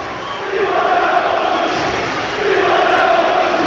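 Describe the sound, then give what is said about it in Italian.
Around 700 Cagliari football fans in the away section at Bergamo cheer and chant after a win, a loud sustained roar of many voices that swells in two waves. “vi vogliamo sentire così, il no? sottofondo dei tifosi del Cagliari che esultano per questa importante vittoria.”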